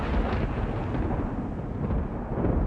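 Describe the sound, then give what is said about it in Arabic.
Thunder from a lightning strike that sets a tree alight: a dense, continuous low rumble, loud and unbroken, rolling steadily without distinct cracks for the whole stretch. “إيه ده؟ في إيه؟ ما تقلقوش، ده صوت البرق، إحنا متعودين عليه هنا.”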